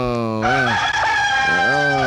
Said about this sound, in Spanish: Ay, ¿cómo amanecería ese gallo de mojado con este invierno?